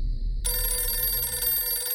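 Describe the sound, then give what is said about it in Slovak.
A telephone rings out of the blue at four in the morning, its bright, continuous electronic ringing starting after a brief silent moment and holding steady to the end. “Keď človeku z nenazdajky zazvoní telefón o 4. ráno”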